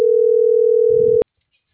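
A single steady telephone tone sounds while a call is being dialed. It holds for about a second, then cuts off with a click, with a faint low rumble just before it ends.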